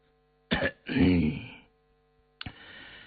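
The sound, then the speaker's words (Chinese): One light cough: a sharp burst followed by a longer, rougher throat-clearing sound, then silence and a faint click. “轻咳了一声”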